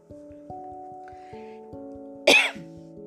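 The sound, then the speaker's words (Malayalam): A single sharp cough from someone with a cough after walking outside in the cold. It rises abruptly over soft, steady musical tones and fades quickly. “ചുമയുണ്ട് കേട്ടോ. പുറത്ത് പോയിട്ട് തണുപ്പത്ത് കുറച്ച് നേരം നടന്നു പോകുന്ന കാരണം തോന്നുന്നുണ്ട്.”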